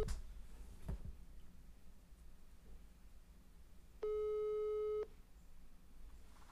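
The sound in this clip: Ringback tone of an outgoing phone call: a single steady beep lasting about one second, clear and even in pitch, rising out of a faint, noisy background with no talking.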